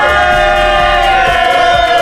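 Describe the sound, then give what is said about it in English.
A party crowd in a radio studio cheers and whoops, a loud continuous wash of many excited voices. “As you can tell, there's a party in the studio. Hopefully it's a party where you are.”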